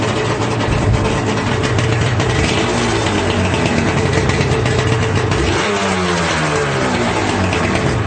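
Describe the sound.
Motorcycle engine running after a choke start on an 85-degree day, a loud, steady idling rumble that continues throughout with a slight change in tone partway through.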